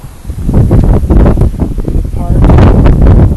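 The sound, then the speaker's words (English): Wind blowing from behind, a loud, continuous roaring rush with gusty buffeting against the microphone throughout. “The wind blowing right at my back, carrying me down.”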